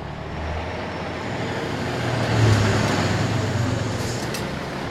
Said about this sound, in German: Ein Güterwagen kommt gerade rein zu fahren, macht hinter die Klappen auf und raus fällt einen grossen grünen Haufen.